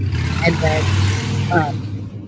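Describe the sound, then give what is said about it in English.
A motorcycle engine runs with a steady, low rumble underneath a person talking, holding an even level throughout without clear revs. “and then that's my motorcycle. I got to get. You can hear that?”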